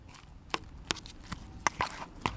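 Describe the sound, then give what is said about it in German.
Utensil knocks and clinks while hand cheese is stirred and mixed with other ingredients, several sharp, faint taps at irregular intervals over a quiet background. “Und dann umrühren. Vermengen wir das schon. Der Handkäse soll sich sehr gut mit allen anderen Zutaten vermischen.”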